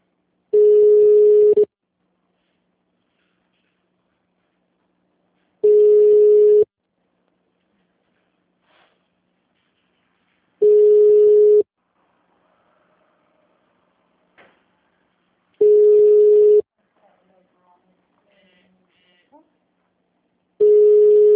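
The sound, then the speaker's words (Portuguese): Telephone tones while a call is being transferred: five long, steady, buzzy beeps repeating about every five seconds, separated by near silence with a few faint clicks. “Tá, só um momento que eu vou transferir para lá.”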